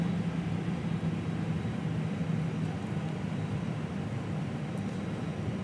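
Steady engine and airflow rumble fills the cockpit of a Condor A320 as it taxis on the apron behind a follow-me car, a constant, even drone with no distinct events.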